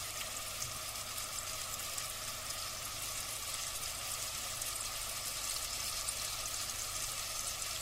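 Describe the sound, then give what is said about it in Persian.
Meat sizzling in a pan while it is lightly browned on its sides, a steady, fairly faint crackling hiss that continues evenly with no speech. “خیلی نمیخوام تختش بدم، فقط همین که روهاش یک کوچولو سرخ بسته تو میخوام بپزمش.”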